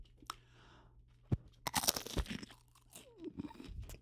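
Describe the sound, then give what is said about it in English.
Crunchy bites and chewing of caviar, a few sharp crackling bursts in the middle followed by softer, irregular mouth sounds, moderately loud with no talking. “Let's take a quick caviar break.”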